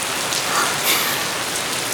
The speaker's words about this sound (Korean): 갑자기 웬 소나기? 비?